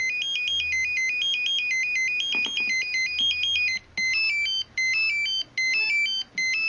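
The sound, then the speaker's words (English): Electronic pager beeping: a rapid, high warbling tone repeats in quick bursts, with a few short pauses between them toward the end over a faint low hum. “Next up, you will probably never hear a pager again.”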